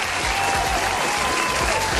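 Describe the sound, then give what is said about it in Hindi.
Loud applause for quiz winners, dense steady clapping from a crowd that holds at a strong, even level throughout. “आप सबके लिए भी भाई ज़ोरदार तालियाँ हो जाए, ज़ोरदार। लिस्ट काफी लंबी है भाई, जोरदार तालियां तो बनती है।”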